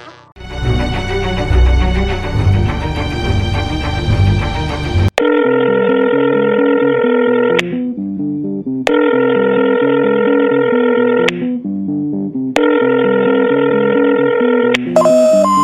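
Telephone ringing and dialing before a call goes to voicemail: a dense, jangling ring opens, then three long, loud, repeated ringing tones follow, separated by silent gaps.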